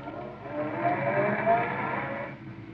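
A car driving to the spaceport: a smooth, continuous engine hum with a muffled, rolling quality, swelling slightly in the middle and easing off toward the end, with no voices.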